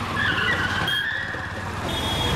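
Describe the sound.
A car brakes suddenly, its tyres squealing high and thin over a continuous rumble of road and engine noise.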